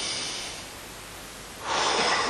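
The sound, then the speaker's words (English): A deep breath drawn in and blown out, a soft airy rush that swells noticeably louder in the final second, with no voices. “So if you'd be kind enough, just take a deep breath.”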